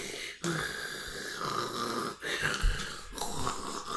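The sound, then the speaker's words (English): Wheezing from a person, heard as a few long, raspy, noisy breaths separated by brief pauses and held at a steady moderate level. “Because she was wheezing and I wanted to catch it. You wanted to catch it on the microphone.”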